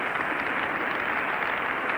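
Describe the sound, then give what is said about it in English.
An audience cheers and applauds Toscanini after a 1936 New York Philharmonic Symphony Society concert of Beethoven's Ninth Symphony. A dense, steady patter of clapping sounds dull and muffled on an old, narrow-range recording. “Mr. Toscanini is being cheered by the audience at this afternoon's concert. He is called upon the chorus of the Scala Cantorum and the orchestra to rise with him.”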